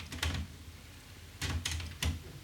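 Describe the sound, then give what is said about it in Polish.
Mechanical clunks and clicks come from a Technics cassette deck transport as it rewinds tape during automatic tape calibration, arriving in three short, fairly faint bursts separated by quiet gaps. “Została taśma cofnięta i w chwili obecnej magnetofon nagrywa sygnały testowe”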